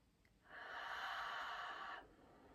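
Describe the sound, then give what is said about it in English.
A single long exhalation pushed through the back of the throat with the lips sealed, heard alone as a soft, steady breathy rush lasting about a second and a half. “halfway through the exhalation, I'll invite you to close your mouth and seal your lips. But you'll still breathe through the back of the throat and you might still feel that vibration in the back of your throat as you exhale.”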